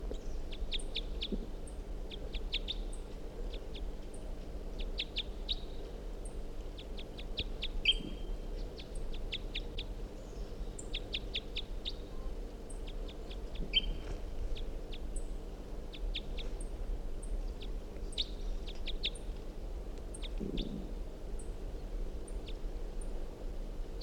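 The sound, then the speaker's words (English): Wild bird calling in many repeated bursts of short, high chirps that run through the whole stretch, set over a steady low background hum. “So we're going 7:45, wild bird here.”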